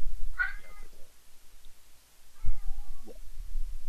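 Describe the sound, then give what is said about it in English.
A cat wanting to be let in meows twice, each a short, fairly loud, plaintive call separated by a pause, with low thumps around the second. “So the Pranfunkel's cat wants to come in, so I'll be right back”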